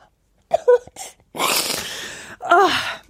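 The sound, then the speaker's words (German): Crying from a person: a few short whimpering sobs, then a breathy, snuffling stretch, ending in a louder wavering wail. “Und du hörst mich nicht lachen, du hörst mich weinen.”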